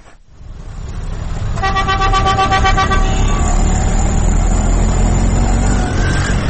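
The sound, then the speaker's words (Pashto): Loud, continuous road traffic in Khyber Bazaar in Peshawar, where cars, buses and rickshaws crowd the street. Its dense roar is broken by a long car horn blast partway through and more honking after it. “دا د پېښور په خیبر بازار کې د گاډو شور دی. چرته چې د ورځې د زرګونو په حساب موټرې، بسونه او رکشې زیرازي.”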